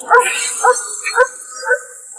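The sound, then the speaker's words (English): A dog barks at a car in a few short, high yips at an even rhythm, with a whining edge between them. “Oh, wait, Sage is barking at this car.”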